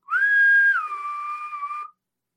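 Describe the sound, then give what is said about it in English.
A person at a door gives a strange little whistle: a clear, steady tone that drops to a lower pitch partway through, holds there, then stops abruptly. “walks over to the door, and does this weird, like, little whistle”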